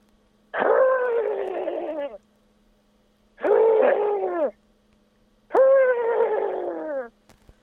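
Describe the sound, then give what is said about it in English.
A person imitates the call of a desert dove, voicing three separate hooting coos, each lasting one to two seconds with a wavering tone, separated by short silences. “That's the desert dove.”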